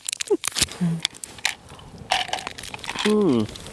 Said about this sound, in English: Nice noises. Dime noises. Dime bar.